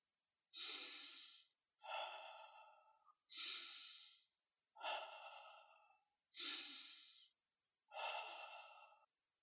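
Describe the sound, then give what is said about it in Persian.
Slow, deep meditative breathing: three even cycles of alternating airy inhales and softer exhales, each breath long and separated by short pauses, quiet and alone. “ریتم تنفس های عمیق به این شکل باشه.”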